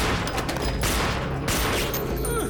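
Rapid gunfire from a street shootout in a city diamond district, with shooters exchanging fire. Dense, loud bursts of shots crack continuously through the whole clip.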